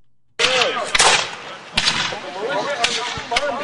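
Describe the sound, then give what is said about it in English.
Gunfire at a reenactment of the Battle of Gloucester at Stage Fort Park, with local militia against British warships. A few sharp, loud blasts crack over a constant noisy bed, and people can be heard talking. “Shots rang out at Stage Fort Park this past weekend as local militia and British warships duked it out during a reenactment of the Battle of Gloucester”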